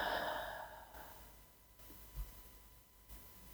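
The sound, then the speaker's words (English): Slow, deep breathing during a guided relaxation exercise: a long, soft exhale that fades gradually, followed by a few faint breath sounds. It is quiet, with no talk. “deep inhale. Following with a nice, deep exhale.”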